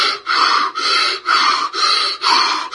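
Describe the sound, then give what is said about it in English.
A man's voice imitates the loud, laboured breathing of a comatose man in an oxygen tent: a steady run of harsh, rasping in-and-out breaths, each separated by a brief pause. “he was huffing and puffing. He was totally in a coma, and he was breathing in real loud and breathing out”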